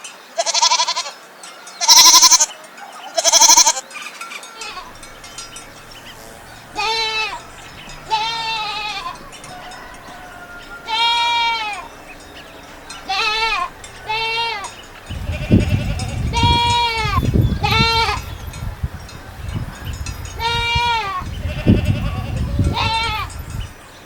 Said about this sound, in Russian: Коза. Коза.